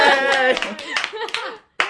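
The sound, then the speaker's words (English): Hand clapping right beside the microphone: sharp, uneven claps mixed with excited voices, with a brief pause near the end before another loud clap. “stop clapping by the mic.”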